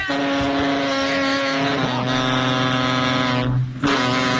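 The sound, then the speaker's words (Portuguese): A truck engine that makes a strange, loud noise runs at a steady droning idle, layered with sustained humming tones; the sound dips briefly near the end, then resumes at full strength. “Cara, seu caminhão tá vivo, cara. Será que ele deve ser um robô?”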